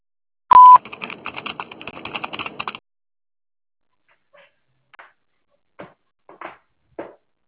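A telephone line gives one brief, sharp beep. Crackling noise fills the next couple of seconds, then a few faint, scattered clicks follow after a pause.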